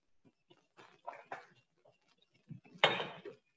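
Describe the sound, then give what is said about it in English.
A greased baking pan handled during baking, giving a few light knocks and scrapes, then one louder metallic clatter that rings briefly before fading. “Here's our greased pan.”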